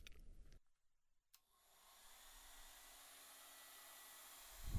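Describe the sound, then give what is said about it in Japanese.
A hair dryer drying hair that has been towel-dried and oiled gives a faint, steady whooshing hiss. It starts after a brief pause and runs evenly to the end. “はい、椅子に座って、タオルで水気をオフして、少しオイル塗ってから乾かすね。”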